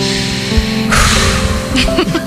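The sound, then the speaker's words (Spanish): A woman draws a loud, dramatic breath, imitating the opening of an influencer's apology video, over plaintive, mournful music that plays throughout. “Respiración inicial.”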